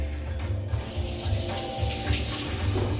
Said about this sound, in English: I think I'm gonna have to rinse that guy.